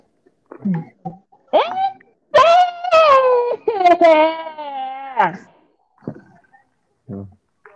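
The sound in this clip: A child cries and wails in a temper tantrum, with several separate bursts of whining. The longest is a drawn-out, wavering wail that drops in pitch at its end, followed by a few short whimpering sobs.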